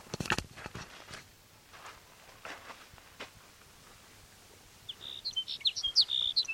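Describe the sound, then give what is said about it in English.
Sage sparrow song: after a mostly quiet stretch, a high, thin series of quick chirping notes rises clearly near the end, fairly loud against faint background. “There's sage sparrow number one.”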